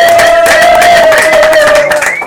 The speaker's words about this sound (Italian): Ringrazio il Lab 52, un applauso.